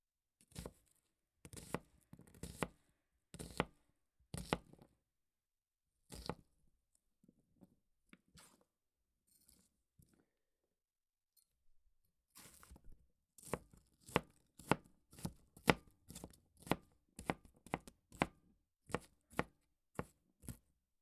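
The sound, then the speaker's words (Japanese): A knife chops an onion on a board with many crisp, sharp strikes. A quick run of chops comes first, then a pause with only faint scraping, then a faster, steadier burst of chopping. “玉ねぎを切っても全然涙が出ません。”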